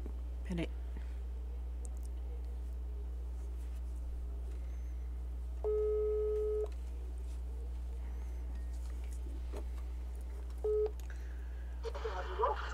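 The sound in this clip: Ringback tone while a video call is being placed, heard as a steady electronic beep lasting about a second, then a shorter beep, over a constant low hum.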